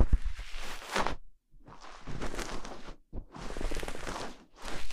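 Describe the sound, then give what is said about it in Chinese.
Cotton rubs against an ear canal in soft, scratchy, rasping strokes: three long strokes separated by brief silent pauses, then the start of a fourth, close and fairly loud. “好好感受棉花和耳道的摩擦声，很舒服吧？”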